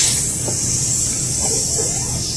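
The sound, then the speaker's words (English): A voice imitates a seltzer bottle spraying with one steady, breathy hiss that lasts about two seconds. “appears at the top of the stairs with a seltzer bottle and sprays you with it. Which goes...”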